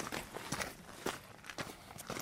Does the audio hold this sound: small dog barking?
no